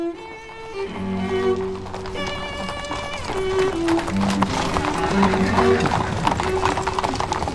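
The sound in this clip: Horses' hooves clip-clop steadily as riders head off to war in the Austro-Hungarian era. The many hoofbeats form a continuous, moderately loud rhythm that runs through the whole clip.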